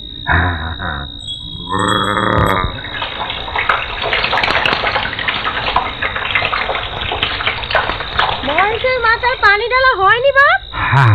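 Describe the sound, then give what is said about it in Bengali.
Water splashes and pours over Mahesh's head in a continuous gushing stream, with voices talking and grunting over it and a wavering vocal call near the end. “আর দুবদনা পানি মহেশের মাথায় ঢেলে তারপর যাচ্ছি। দেরি করো না কেন? না না, দেরি করবো না, তুই যা। হাই মহেশ, ওঠ ওঠ, উঠে দাঁড়া। হ্যাঁ হ্যাঁ, মাথায় পানি দিচ্ছি।”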